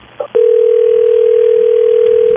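A telephone dial tone sounds before a call is placed: a loud, steady, single-pitched tone that starts just after a brief click and holds unbroken to the end.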